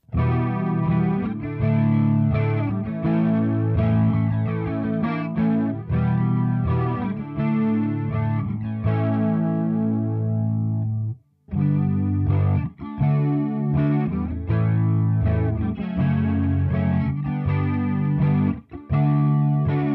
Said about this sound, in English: It's one of Boss's most famous and most coveted effects for collectors. The original pedal was actually intended to mimic the chorus circuit of the amp, not the other way around.